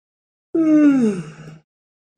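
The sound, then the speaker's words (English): A single drawn-out playful yawn, voiced and sliding downward in pitch over about a second before trailing off into silence, with another vocal sound just beginning at the very end. “that wasn't really a tired yawn.”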